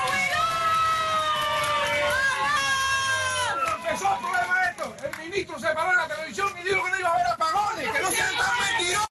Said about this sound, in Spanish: ese es el sonido de una protesta que hubo en el poblado de Carlos Rojas, ahí en Matanzas